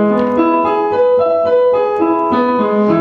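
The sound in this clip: An E arpeggio is played on a sustained-tone musical instrument, with a sequence of even, held notes that leap between chord tones rather than stepping, each note clear and steady.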